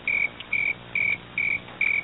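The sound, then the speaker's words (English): Crickets chirping as a sound effect: five evenly spaced, high, shrill chirps, each a short trilled burst, sounding alone against near silence. “crickets”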